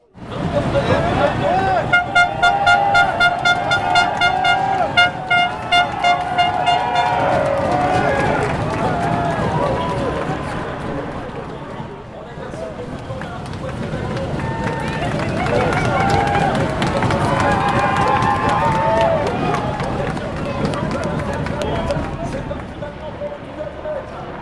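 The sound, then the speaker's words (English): A roaring crowd of spectators at the summit of Mont Ventoux during a Tour de France stage fills the air with continuous shouting and cheering voices, with loud honking horns in the first few seconds. “Well, we opened tonight with some noise from the summit of Mont Ventoux.”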